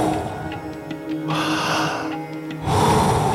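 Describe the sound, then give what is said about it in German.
Deep, slow breaths drawn in and let out during a guided breathing exercise, a couple of long airy rushes rising and falling in a wave-like rhythm. “Voll einatmen und dann wieder loslassen.”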